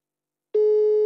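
A mobile phone call tone for an unanswered call cuts in after half a second of silence: a single steady, clear mid-pitched tone with faint overtones, holding evenly to the end with nothing else heard.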